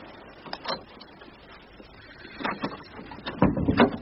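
A guardhouse door is opened inside a cramped inner perimeter fence post. A few soft mechanical clunks and rattles grow somewhat louder toward the end.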